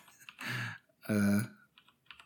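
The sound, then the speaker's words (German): Typing on a computer keyboard gives soft, quick clicks in two short bursts, with quiet gaps between them. “Ich weiß, ich höre mich tippe und so, es tut mir auch schrecklich leid.”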